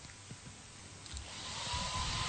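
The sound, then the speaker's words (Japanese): A hair dryer blowing air, a steady, breathy whooshing roar that grows louder toward the end, with no talking. “ドライヤーの風が当たる音なんですけど、ちょっと不思議と耳があったかくなったりするんですよ”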